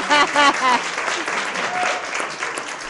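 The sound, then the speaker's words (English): Audience applause greets a returning guest on a talk show: a dense, steady wash of clapping runs through the whole clip, with a voice speaking briefly over it at the start. “Hello, welcome back. Everyone give Jay a welcome back.”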